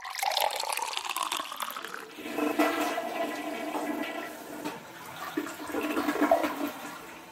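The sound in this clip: A toilet flushing during a bathroom break: a loud rushing gush of water eases into a steady swirling refill trickle, with no voices.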